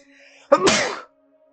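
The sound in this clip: A single sharp human sneeze bursts out after a brief quiet intake, then trails into a breathy hiss lasting about half a second over a faint background hum.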